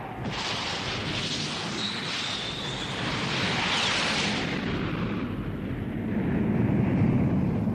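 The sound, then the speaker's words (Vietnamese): A MiG jet aircraft roars overhead as a radio drama sound effect, a dense, continuous rushing roar that holds steady and swells louder toward the end, with no voices. “Thương nhìn theo đường bay của chiếc MiG, mặt ngời lên hạnh phúc.”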